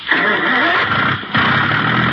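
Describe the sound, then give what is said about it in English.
A motorboat engine starts up to pull a water skier. It makes a loud, rough, steady roar with a brief dip partway through, then picks up again at full strength. “Now, I'll start the motor.”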